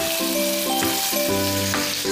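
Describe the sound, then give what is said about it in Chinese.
Tofu frying in a pan of oil with a little salt added, a steady, loud, even sizzle that runs the whole time. “为了防止豆腐粘锅，大家呢可以在油锅中放入少许的盐，然后把豆腐依次放入锅中。”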